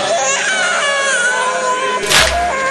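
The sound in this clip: An infant cries in a long, loud, continuous wail at a gathering with group chanting, the cry holding steady before a brief noisy burst near the end.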